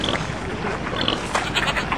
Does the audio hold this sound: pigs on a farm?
yes